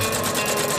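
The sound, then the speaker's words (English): Rapid mechanical clatter of socks being stitched by machine in Australia, a fast, even rhythm of repeated ticking pulses over a steady whirring hum, with no voices. “Socks being stitched.”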